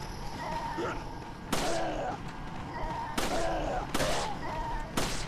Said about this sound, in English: Aim for the head. Gotta make the bullet count.